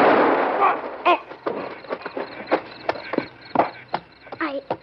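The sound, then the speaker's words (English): Gunfire in a vintage western drama: sharp, percussive bangs and cracks during a tense standoff and scuffle, mixed with raised voices. “I didn't mean to shoot him.”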